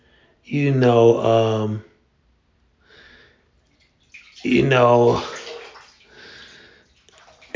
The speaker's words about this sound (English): I'm sitting here in my tub, sitting in the water